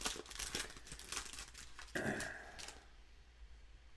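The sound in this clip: Foil packs of 2021 Heritage and Donruss MLB baseball cards being torn open: faint crinkling and ripping in a few quick bursts, then a short, brighter tearing stretch before it goes quiet.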